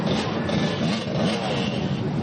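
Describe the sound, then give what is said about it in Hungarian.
Harley-Davidson motorcycles ride past in a long procession along the Lake Balaton shore at an international motorcycle rally. Their engines make a steady, loud, dense rumbling roar that runs without a break. “Több kilométer hosszan egymás után vonultak a motorosok a Balaton partján.”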